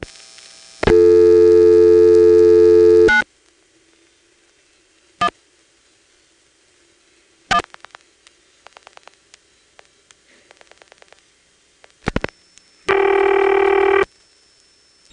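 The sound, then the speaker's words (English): A 1977 telephone register sender converts a 911 call into a local police number. A long steady tone gives way to scattered clicks and several quick trains of dial pulses, followed by a short ringing tone. “Here's the register sender turning 911 into a local number for the police department in 1977.”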